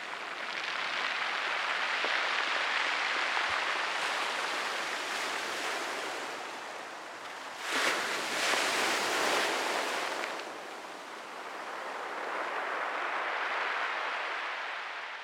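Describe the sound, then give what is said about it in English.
Waves and wind at a bay in West Clare make a steady, roaring wash of surf. A brief, louder crash near the middle gives way to a quieter lull, then the roar rises again, with no voices. “And finally, the sound at Ross's Bay.”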